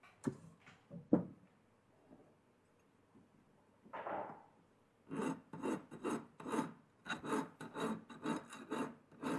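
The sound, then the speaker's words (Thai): Filing of welded edges with a large file: a rapid, even series of many rasping strokes fills the second half, preceded by a few scattered scrapes and clicks, all fairly faint. “เราเริ่มต้นโดยการใช้ตะไบตัวใหญ่ก่อนนะครับ”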